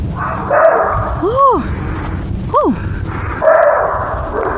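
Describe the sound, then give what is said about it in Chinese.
Roe deer calling in a field recording: two short, hoarse, dog-like barks with an arched pitch, one shortly after the other, over a steady background. “我看我那录过它的声音 啊。狍子的声音有，听听狍子是怎么叫的。”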